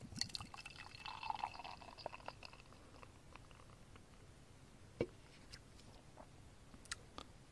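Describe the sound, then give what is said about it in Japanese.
A drink being poured from a can, about half the can emptied, heard as a faint, steady liquid trickle with a few small clicks and taps scattered throughout. “缶半分ほど注いでみました。”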